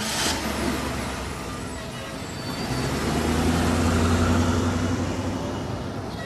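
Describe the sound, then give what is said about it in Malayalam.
A police jeep drives past at a town bus stand, a broad engine rumble that swells and then eases slightly amid general traffic noise. “ഹോ ദാ police jeep പോയി.”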